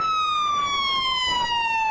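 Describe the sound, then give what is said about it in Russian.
A fire station siren wails steadily, sounded by local firefighters in Białystok, Poland, on 11 September. The tone is loud and sustained, its pitch sliding slowly downward throughout. “В Белостоке точно в минуту, когда первый самолет ударил в здание Всемирного торгового центра, местные пожарные включают сирену.”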